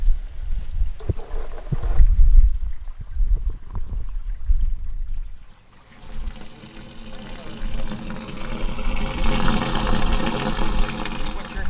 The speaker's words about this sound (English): water rushing off the sidewalk, down the drains. Here it comes. Off the roof